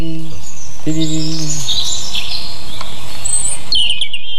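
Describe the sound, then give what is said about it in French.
A European robin sings high, metallic, rapid phrases of thin whistled notes that tumble quickly in pitch, loud and continuous over a faint background. “c'est le rouge-gorge. Il est très métallique et il y a cette espèce de bille en suspension.”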